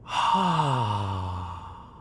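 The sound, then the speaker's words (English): A long, loud, voiced sigh of breath out through the mouth in a slow breathing exercise, its pitch sliding downward as it fades. “Let's slowly breathe in. Then slowly breathe out through our mouths.”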